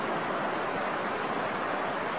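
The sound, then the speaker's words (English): Effluent water from a breached tailings pond rushes very fast across a washed-out road near Horsefly. It makes a steady, loud, unbroken roar of flowing water. “That's the affluent from the tailings pond, flowing very fast and the road's washed out.”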